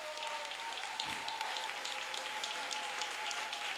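Applause from a church audience cheering a vicar: a dense, steady wash of clapping that holds at an even, fairly faint level from start to finish.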